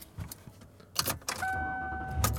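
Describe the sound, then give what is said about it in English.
Sounds from a car: a few sharp clicks and clunks, then a steady electric whine over a low rumble, with one more click near the end. “And I am driving home.”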